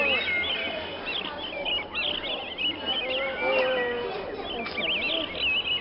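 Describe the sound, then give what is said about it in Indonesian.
Birds calling in an aviary holding parrots, mynas and peacocks. Overlapping chirps, whistles and squawks run continuously at a moderate level. “Sampailah mereka di kandang burung. Beraneka macam burung ada di sana. Ada nuri, ada jalak, ada merak, dan masih banyak lagi.”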